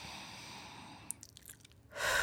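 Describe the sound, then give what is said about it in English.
A deep breath is drawn in as a soft, breathy hiss that swells sharply near the end after quiet background noise. “So I'm going to come back now. I'm going to take a breath in.”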